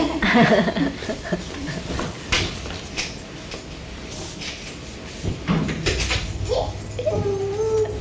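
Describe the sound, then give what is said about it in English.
Keys lock a door with a few metallic clicks and rattles, spread unevenly among soft handling noises at a moderate level. “啊，揸啲鎖匙去閂門，鎖門。 應該係可以 lock 咗個門先。”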